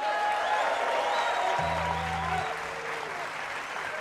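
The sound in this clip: Audience applause welcoming guitarist Jim Hall at the 2013 Newport Jazz Festival: dense, steady clapping fills the whole clip at an even level, with a brief low hum appearing midway.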